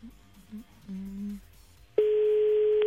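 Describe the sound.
Telephone call tone heard when calling back a towing service: a single steady, unbroken pitch that comes in loud and holds for about a second, after a stretch of faint murmured voices.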